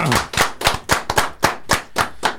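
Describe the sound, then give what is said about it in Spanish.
Sharp, evenly spaced hand claps ring out in a quick steady rhythm, the applause called for when a guest on a live variety show is thanked. Each crisp clap stands apart with no chatter over it. “Vamos, fuerte aplauso para Coca.”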